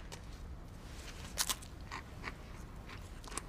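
Biting into dry saltine crackers gives a few short, crisp crunches, with a quick pair of louder bites near the middle. The crunches are fairly faint over a low background hiss.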